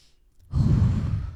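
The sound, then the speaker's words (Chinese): A single deep breath, heard as a low, airy sigh that begins abruptly after a quiet moment and holds for nearly a second. “哈利深呼吸了一口气”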